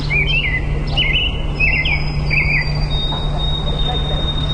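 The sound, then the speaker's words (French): Birds chirp at a lake somewhere in Quebec or Ontario, a run of short high tweets in the first few seconds over a steady insect drone and low hum that continues throughout. “Des vacances près d'un lac quelque part au Québec ou en Ontario, c'est comme ça que ça sonne.”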